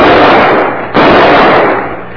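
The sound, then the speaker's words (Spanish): Two pistol gunshots about a second apart, each a loud, sharp crack trailing into a long, fading rumble. “Ya tiró los otros dos que le quedaban. Ya no tiene parque su pistola.”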